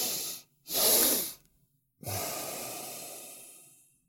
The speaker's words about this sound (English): you breathe through the nose with a double inhale like this. So a double inhale.